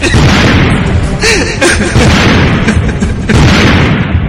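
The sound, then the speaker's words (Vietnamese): A car explodes with loud, booming bursts inside a dense, roaring rumble that stays heavy throughout, with a few sharper blasts standing out. “Vì ngay sau đó thì xe đã phát nổ rồi.”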